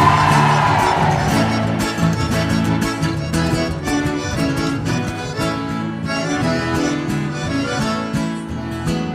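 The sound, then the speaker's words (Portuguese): Men and women in a forró show crowd shout and cheer over continuous live music with an accordion player, their voices blending into a steady, loud roar throughout. “Eu quero ver o grito apaixonado dos homens e o grito das mulheres que manda neles.”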